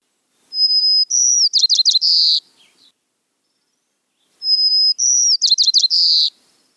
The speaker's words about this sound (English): That was the song of the white-crowned sparrow, a bird that looks just about like you would imagine it would look from that name.